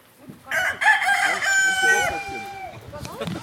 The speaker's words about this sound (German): Der Kikirikihan ist auch dabei.